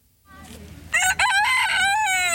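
A rooster crows on a farm, one loud, drawn-out harmonic call with a brief break partway through, rising out of a low rustle of background noise.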